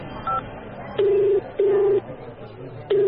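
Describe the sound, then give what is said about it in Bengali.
Tones from dialing a number on a mobile phone: a brief high beep, then a few longer, steady mid-pitched beeps over a low, noisy background. “প্যান্টের pocket থেকে phone বের করে একটা number dial করল।”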